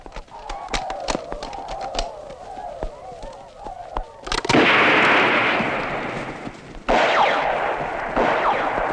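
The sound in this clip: Machine gun fire in battle crackles as many sharp, irregular shots under shouting voices, then gives way to a loud, sustained roar of dense noise that briefly drops and surges again.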